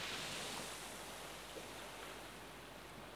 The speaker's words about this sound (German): Abgesehen vom Rauschen des Meeres ist völlige Stille und Ruhe in dir.